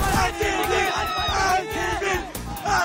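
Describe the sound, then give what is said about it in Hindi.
Cricket fans chant and cheer outside Narendra Modi Stadium in Ahmedabad. A loud, continuous crowd roar carries rhythmic shouted chanting with rising and falling swells, and no pause for the whole stretch. “Ahmedabad के Narendra Modi stadium के बाहर fans का ये शोर, ये जोश, ये जज्बा”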